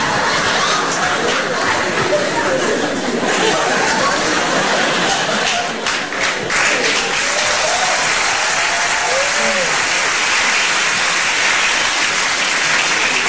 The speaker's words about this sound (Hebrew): אין צורך בכפיים